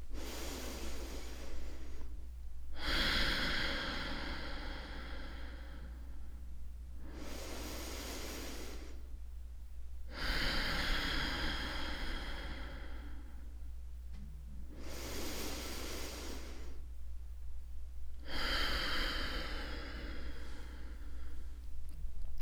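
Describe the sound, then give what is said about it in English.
Slow, deep breaths drawn in and let out during a calming breathing exercise. Each long, airy hiss rises and fades in turn, with short quiet gaps between them, over a steady low hum. “Put your hand on your heart and take 3 deep breaths.”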